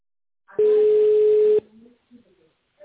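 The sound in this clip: An unanswered telephone call rings: one steady, level ring tone lasts about a second, then cuts off. A few faint, low sounds follow before quiet.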